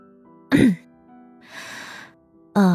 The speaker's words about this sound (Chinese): 咳了一声，他清了清嗓子